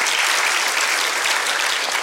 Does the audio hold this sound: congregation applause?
yes